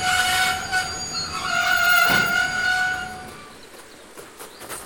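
A detached railway wagon rolls along the tracks, with metallic wheel squeal ringing in high sustained tones over a rumbling, rattling undercarriage.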